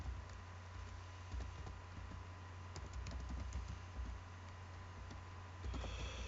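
Typing on a computer keyboard: many soft, irregular keystrokes pattering along steadily, faint and with no talking over them.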